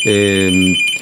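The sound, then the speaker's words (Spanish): A telephone rings for an incoming call: one loud, buzzy electronic ring lasting under a second, over a faint, steady high-pitched whine. “Una llamada telefónica vamos a recibir.”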